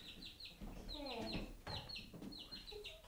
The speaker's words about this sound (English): So there's Polka Dot, one of Anna's birthday presents. Now, she got chicks as well as everything she needs to...